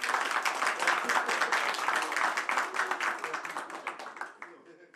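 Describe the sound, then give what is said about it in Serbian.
Audience applause at a live evening show: a dense, steady clapping that stays loud for several seconds, then thins out and fades toward the end, with crowd voices mixed in. “Super, još jedan veliki aplauz, molim vas.”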